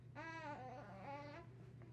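A baby babbles and fusses in two drawn-out, wavering vocal phrases with a slightly whiny tone, faint over a low steady hum.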